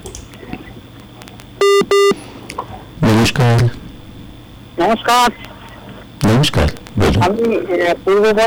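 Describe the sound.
Two short touch-tone dialing beeps sound on a phone-in line, each a steady, bright double tone, followed by people talking.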